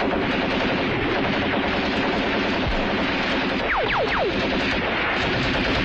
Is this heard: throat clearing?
no